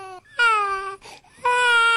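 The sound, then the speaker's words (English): Hungry infants crying: two loud, high-pitched wailing cries with a brief gap between them, no talk. “are those infants reaching for Silk's rack? Rack him! They do sound hungry.”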